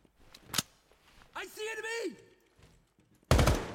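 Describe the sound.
Gunfire in a tactical shooter video game: one sharp shot early, then a loud, harsh burst of fire at the end, with a voice calling out in between.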